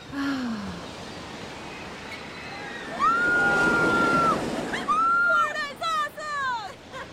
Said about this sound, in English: Look out for that wave!